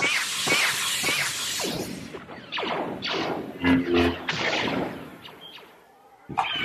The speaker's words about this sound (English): Hey, you men! Get that war beast settled!